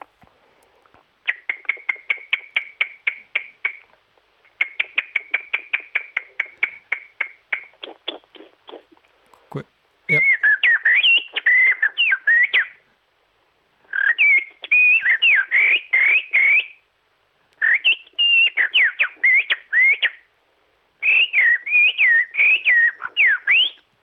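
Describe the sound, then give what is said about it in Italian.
Human whistling imitates a blackbird and then a song thrush: first a long run of rapid, even staccato notes, then a brief low knock, then four bursts of bright, warbling phrases with quick shifts in pitch. “Ti faccio il merlo e poi ti faccio un 2-3 note del tordo bottaccio.”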